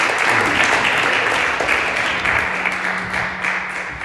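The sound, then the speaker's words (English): A church audience applauds, giving dense, steady clapping from many hands that holds at a loud, even level for about four seconds before tapering slightly at the end. “Everyone, let's give it up for Kelvin one more time.”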